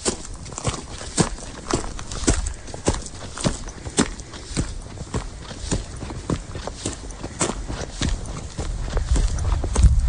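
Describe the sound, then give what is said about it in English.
Footsteps walking on gravel up a driveway, with many crunchy, steady steps in an even rhythm that continue without a break. “Walking on gravel. Up my driveway.”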